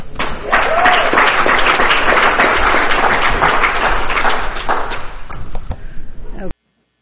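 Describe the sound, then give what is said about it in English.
Audience applause follows a speaker at an Al-Anon meeting: dense, steady, loud clapping lasting about six seconds, then stopping abruptly into silence. “Let's give it up for him and the outfit.”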